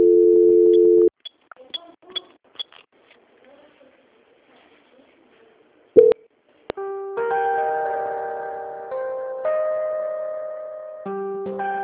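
Telephone call transfer tones: a steady beep, then scattered clicks and a near-silent lull, followed by a series of sustained electronic tones stepping between different pitches.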